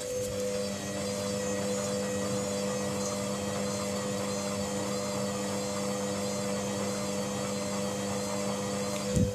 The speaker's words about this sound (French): Ce que vous entendez là n'est pas une scie sauteuse, non. Ce que vous entendez là, c'est une machine à laver le linge.